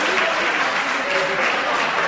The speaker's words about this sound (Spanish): Gracias por venir, de verdad. Un aplauso para ellos.